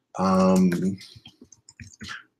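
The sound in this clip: Typing on a computer keyboard into a search box, heard as a quick, light run of clicks that follows a brief spoken word.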